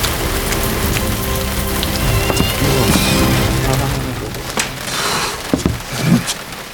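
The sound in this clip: Rain pattering on the roof of a hut at night: a dense, steady hiss of drops with a few sharper knocks and taps standing out near the end, loud and continuous.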